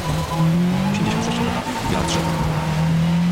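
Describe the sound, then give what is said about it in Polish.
Race car engine in a racing video game, driving on a wet track in the rain: a steady, loud, low engine drone with shifting pitch and some tyre noise over it. “słychać, że dźwięki zmieniły się. Słychać, że pada. Słychać, że jedziemy po deszczu.”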